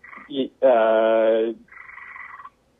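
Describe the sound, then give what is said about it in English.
A frog calls nearby in a few croaking bursts: short rough notes, then a long buzzy harmonic croak, then a thinner trailing call, each clear against a quiet background. “sorry, there's like a frog or something nearby that's calling.”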